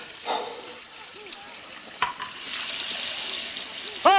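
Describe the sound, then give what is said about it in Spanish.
Hot water gushing from a faulty tap that lets off steam: a few faint knocks and clatters, then a steady, hissing rush of water that carries on to the end. “Sale vapor. Ay, perdona, mi amor. Este grifo es una mierda que te das caldo, ¿no? Es que nunca consigo pillarle tranquilo.”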